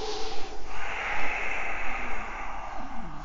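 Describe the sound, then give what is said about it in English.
Breathing during a yoga session of repeated wheel poses, with loud, airy breaths. A short puff of air is followed by a long, sustained rush of breath. “Breath in. Breath out. Wheel, go up.”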